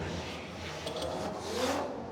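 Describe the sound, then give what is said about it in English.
A Mazda FD RX-7 drift car on Falcon tires revs its engine at a drift event. The sound is faint and blurred into a broad wash of noise, with a brief rising tone near the end. “Here comes this Werdhouse Drift Team Falcon Tires FDRX7, James the Machine Dean.”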